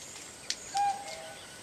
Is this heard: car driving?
no